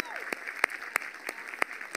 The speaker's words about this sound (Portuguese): Será que podemos dar uma salva de palmas a toda a equipa de City Care da nossa igreja?